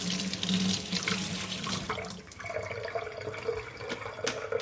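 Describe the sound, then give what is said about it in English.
Tap water runs steadily as scallions are rinsed under it in a kitchen sink: a continuous rushing splash whose tone shifts partway through as the stream breaks over the vegetables. “So I've got some scallions here and I'm just gonna give them a bit of a rinse.”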